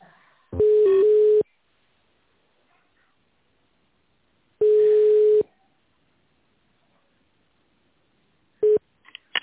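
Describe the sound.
Telephone line tones while a call is transferred: two steady ringback tones, each about a second long and separated by several seconds of silence, then a short clipped tone and a few brief blips at the end.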